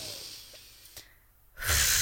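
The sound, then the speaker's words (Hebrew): A single deep breath drawn in as part of a breathing practice: after a quiet, faintly hissing lull, a loud rush of inhaled air swells at the end. “מה שקורה בבועות זה בעצם שאני לוקחת אוויר”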